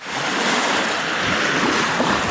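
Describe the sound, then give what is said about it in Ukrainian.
Sea waves wash onto a pebble beach at a resort town on Crimea's western coast, a loud, steady rush of surf blended with wind noise, with no distinct individual breakers. “Чисте море і гальковий берег.”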